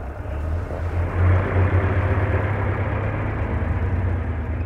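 A taxi engine idles with a steady, low, throbbing rumble that holds at an even level throughout, with no voices over it.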